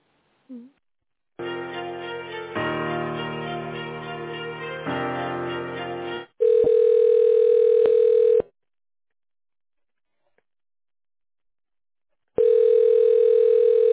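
Telephone ringback tone on an office line while a call is transferred: a steady, mid-pitched electronic tone in two long bursts separated by a silent gap.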